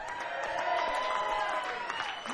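An audience at a live Independence Day show at the Rose claps and applauds in a dense, steady patter mixed with crowd noise, fairly faint throughout.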